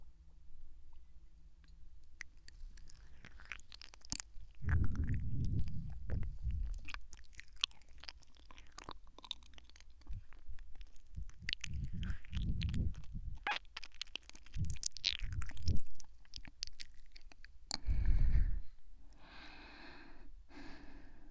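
Soft, wet chewing and biting of medicine by someone eating, in irregular bursts with brief pauses and faint breaths between them, no talking.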